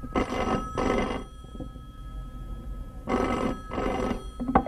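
A telephone bell rings in a home in two double bursts, each pair of short, loud rings followed by a silent gap of a couple of seconds, with no voices.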